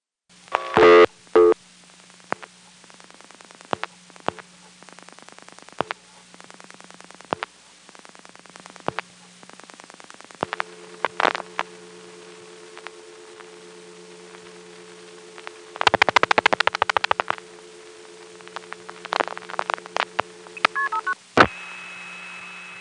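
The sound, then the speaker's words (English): Telephone dialing through an NX1 exchange, with the call being ticketed and hung up mid-sending: scattered sharp clicks and short tone bursts over a low steady hum, with a long dense burst of signalling tones partway through. “Now I'm going to dial 1-592 plus 4 digits, which is a call that goes through another NX1, but I'm going to hang up in the middle of the sending. Again, notice the sound of the call being ticketed.”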